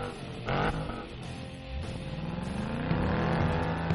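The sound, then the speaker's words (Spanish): A car engine starts and revs: a short burst early on, then a steady engine note that climbs in pitch as it accelerates. It is heard alone. “prepárense a encender motores, giren la llave y arrancamos.”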